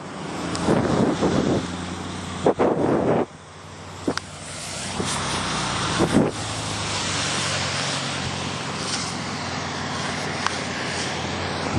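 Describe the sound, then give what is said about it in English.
Cars pass in traffic as a steady, broad rushing roar, with a few louder bumps and swells early on and a fairly even wash of road noise after. “So there's some cars coming. Falling back at me and in front of me. So hold on, there's gonna be some traffic noise.”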